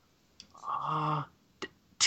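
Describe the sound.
Short, sharp mouse clicks during an online search, a few in all, coming right after a brief stretch of voice.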